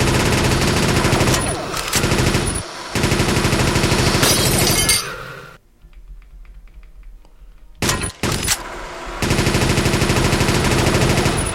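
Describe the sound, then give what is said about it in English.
Rapid machine gun fire from the speed machine gun weapon on level 9 of a video game: loud, dense rattling bursts broken by short gaps and one longer pause midway, then a few brief bursts before steady fire resumes. “Level 9. Speed machine gun.”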